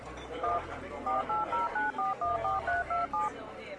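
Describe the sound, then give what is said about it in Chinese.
A mobile phone number is dialed on a keypad in a quick run of many short, evenly spaced touch-tone beeps over a low steady hum, with brief gaps between digits. “你确定吗？用我的手机打打看。”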